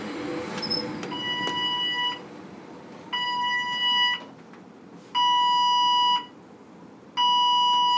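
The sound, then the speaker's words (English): An alarm rings at a workplace in four repeated electronic bursts of about a second each. Steady, piercing tones are separated by short gaps, and the later bursts are louder. “That is the alarm that is the constant soundtrack to my working weekend.”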